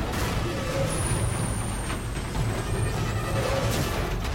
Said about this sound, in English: The truck with a snowplow at its front speeds on.